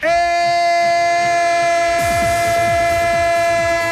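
Train sound effect: a loud, sustained horn chord holds steady throughout, joined about halfway by a rhythmic clatter of wheels rolling over rail joints beneath it.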